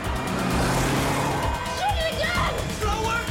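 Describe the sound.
Car swerving around a red truck: a loud, continuous engine and road roar that fills the whole clip, with a few brief higher whining tones in the second half.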